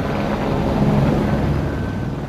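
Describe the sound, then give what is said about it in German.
A helicopter hovers low directly overhead, making a steady, loud, dense rumbling roar that stays constant throughout. “Der Hubschrauber stand direkt über uns. So tief, dass man ihn fast mit Händen greifen konnte.”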